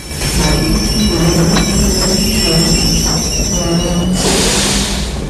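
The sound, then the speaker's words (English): A train brakes to a halt at a run-down covered platform, its wheels giving a loud, sustained, high metallic squeal over a heavy rolling rumble, followed near the end by a burst of hiss. “The train comes to a halt in front of a tumble-down covered platform.”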